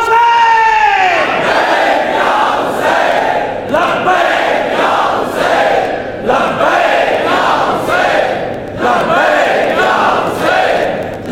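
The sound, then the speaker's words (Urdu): A large crowd chants the religious slogan "Labbaik ya Hussain" in unison, loud, full-throated shouts repeating in a strong rhythm roughly every two seconds with brief dips between each call. “لہذا پھر ایک بار وہ نعرہ لگائیے، تو پھر میں اس کے بعد مضمون کا آغاز کروں۔ لبیک یا”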